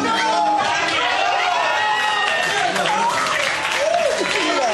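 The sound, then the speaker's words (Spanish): A music festival audience cheers and applauds the announcement of a Grammy win for best alternative rock group. Steady, dense clapping runs throughout, with shouts and excited voices rising over it. “¡Mira, celebra el público!”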